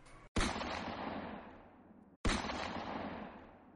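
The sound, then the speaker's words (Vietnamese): Gunfire erupts as soldiers shoot from hidden positions during an ambush on pursuers. Two heavy, booming shots are spaced well apart, each followed by a long, rumbling decay. “Tiếng súng dày đặc vang lên.”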